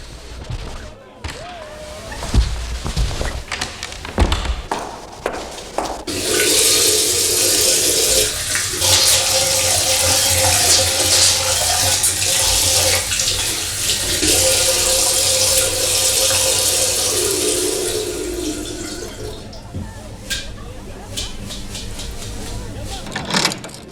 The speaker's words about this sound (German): Darf ich mir mal die Hände waschen? Nebenan ist ein Badezimmer.